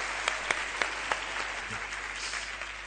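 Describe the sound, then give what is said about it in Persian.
Applause from a crowd: steady, dense clapping that continues throughout, with a few sharper claps standing out early on. “بزن دست براشون. آی ماشاءالله.”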